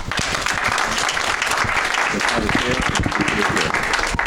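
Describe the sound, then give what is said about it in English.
Audience applause welcomes a speaker at a talk. Dense, steady clapping from many hands continues throughout, with faint voices heard under it. “Please welcome Dr. Yuri Krohn.”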